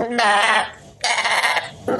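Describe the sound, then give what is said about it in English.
Goat bleating from a farm goat kept among other goats and used for goat yoga: two loud, wavering bleats come first, then the start of a third, with no talk. “So you were eating grass, just hanging around the farm with other goats.”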